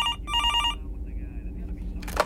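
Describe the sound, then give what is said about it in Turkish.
A telephone rings in two short bell bursts over a low rumbling background, then falls quiet before a brief noisy burst near the end. “Ta ki kaybolmadan önceki gece çalan telefon tekrar çalana kadar.”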